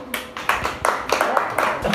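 Scattered clapping from an audience, a few irregular claps of uneven loudness rather than full applause, with faint murmur beneath.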